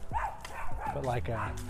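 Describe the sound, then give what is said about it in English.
A small dog barks at a bigger dog, letting out a rapid series of high, sharp yaps with whiny, whimpering tones between them. “I love it when little dogs freak out at bigger dogs. It's my favorite thing.”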